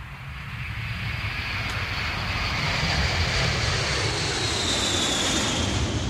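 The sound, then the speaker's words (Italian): An airplane taking off: a loud, steady roar of engine noise with a thin high whine running above it, holding strong for the whole stretch with no voices. “Avete allacciato le cinture di sicurezza? Questo era un aereo che decollava”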